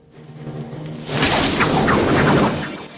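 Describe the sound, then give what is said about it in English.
Flaming arrows loosed from the bows of a line of archers at night make a broad, rushing whoosh. It swells suddenly to a loud roar and then fades away. “They loose the arrows.”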